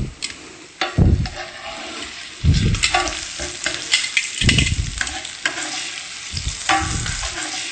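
Pineapple slices sizzle and fry in a pan as they are flipped, giving a constant crackling sizzle broken by a few louder, lower surges.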